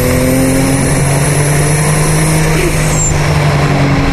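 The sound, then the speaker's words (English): Turbocharged race car engine driven around a racetrack, a loud, continuous droning roar with a thin high whine held through the first half and a brief falling whistle later. “Love that turbo sound. Yeah, it's better than generic rock music.”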